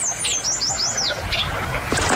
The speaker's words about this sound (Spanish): Lo que acabamos de escuchar fue el canto de la piranga carirroja, un ave que fue avistada en el corregimiento de La Buitrera